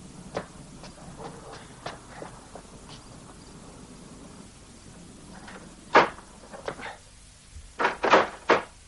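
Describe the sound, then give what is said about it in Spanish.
A door is shut inside a house in a 1962 drama film, heard as a few dull knocks and clunks over a low background. The loudest thumps come in a short cluster near the end. “Una vez dentro, cierra la puerta”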